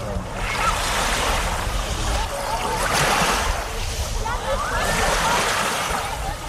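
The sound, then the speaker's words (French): Beach ambience with waves rolling in over a constant rush of surf, swelling and easing in a few broad surges. “Voilà l'ambiance de plage que vous aurez peut-être la chance de connaître cet été”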